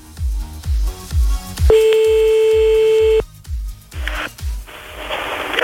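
Telephone dialing for a live call: a steady dial tone holds for over a second, followed by short tone bursts. A pulsing low bass beat thumps regularly underneath the whole time.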